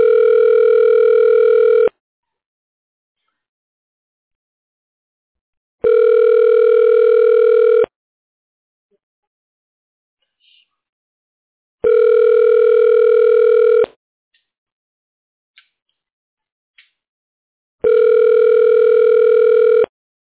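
Telephone ringing tone while a call is forwarded: four steady, evenly spaced two-second tones, each buzzy with harmonics and fairly loud, separated by stretches of silence, with no voices.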